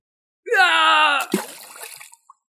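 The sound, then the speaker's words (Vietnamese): An anguished, drawn-out scream is cut off by a heavy object splashing into a river, followed by a short burst of churning water that fades out. “thét lớn một tiếng đầy thê lương, tiếp theo là tiếng vật nặng rơi xuống nước”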